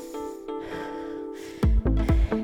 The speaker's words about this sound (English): At an 8, you can hear, my breath?